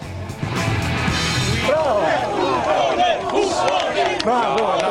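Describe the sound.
A crowd shouts and jeers at a guest on a TV talk show, a loud, continuous roar with individual voices rising above it throughout.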